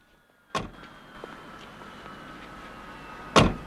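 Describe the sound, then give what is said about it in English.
Two solid door thuds, about three seconds apart, come from the rear door of a hearse being shut, with quiet vehicle noise between them. “One of the undertakers shuts the rear door, then gets in the front.”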